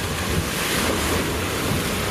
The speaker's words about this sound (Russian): Идут волны. Ой-ой-ой, прям пена такая.